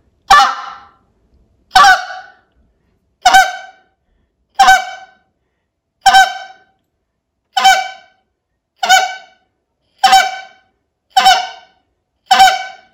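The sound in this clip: Goose-call honking from a reed call imitating geese: ten loud, evenly spaced honks with a nasal, buzzy tone, each cut short, heard alone without talk.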